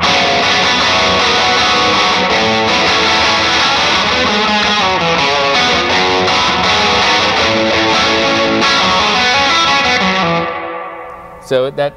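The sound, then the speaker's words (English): Distorted electric guitar pushed to the front of a dense band mix during a song, a thick, sustained wall of sound that holds steady for about ten seconds before fading out, with a couple of brief hits at the end. “So I found that actually I had a kind of distortion in that place for a while, and then I was like, you know what, I just want to boost that moment.”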